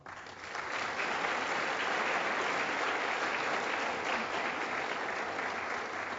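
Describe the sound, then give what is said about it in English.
Audience applause for a guest at a panel conversation, with dense, steady clapping that swells in quickly and holds evenly throughout. “Ladies and gentlemen, please put your hands together for our guest.”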